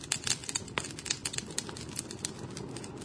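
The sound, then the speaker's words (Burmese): Crackling like a burning bonfire, many sharp, irregular pops and snaps scattered over a soft, hissing bed, fairly quiet and with no voices. “ဒီတန်းကိုနားထောင်ကြည့်ရတာမီးပုံပွဲလုပ်တဲ့အခါမှာထွက်တဲ့အတန်နဲ့တူတယ်နော ်ဂျပန်စကားမှာတစုံတစ်ခုကိုမီးလောင်နေတဲ့အခါမှာဒီလိုအတန်မျိုးနဲ့ဖော်ပြလေရှိတယ်”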